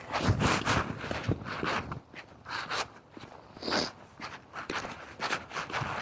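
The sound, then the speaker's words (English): Soft footsteps of someone walking while holding a phone up, a steady run of many faint steps with light rustling and no voices. “So I'm holding the phone up while I walk.”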